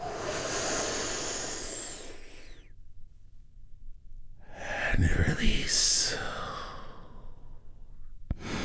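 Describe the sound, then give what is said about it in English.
A deep breath drawn in and then released during a guided relaxation exercise, heard as two long, breathy, hissing sighs separated by a brief silent pause, with no speech. “we're going to take one big, deep healing breath all together. Here we go. And”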